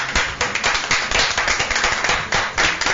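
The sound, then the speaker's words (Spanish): Audience applause after a live band performance: dense, sustained clapping fills the whole stretch with many overlapping sharp claps at a steady, fairly loud level and no clear pauses. “Los aplausos otra vez, por favor.”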